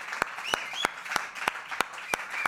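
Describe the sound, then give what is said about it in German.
Applause from a gala show audience, with steady, evenly spaced sharp claps about three per second over a faint, softer patter of clapping, fairly quiet throughout. “Wir wollen einen donnernden Applaus haben.”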